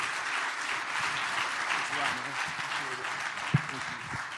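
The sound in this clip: Audience applause welcoming a guest speaker at a morning gathering: steady, moderately loud clapping that runs throughout, with voices heard talking beneath it.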